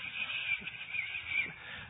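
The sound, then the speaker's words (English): A human voice imitating a bird call, producing a few nasal, honking squawks with a goose-like quality, strung together over about two seconds. “He chooses birds that fly around and go...”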